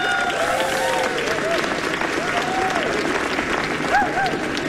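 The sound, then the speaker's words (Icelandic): A crowd applauds musicians after a song with thick, unbroken clapping, and a few voices ring out from the audience over the steady wash of hands. “Eigum við ekki að klappa fyrir þessu stórkostlegu tónlistamenni sem eru hérna með okkur?”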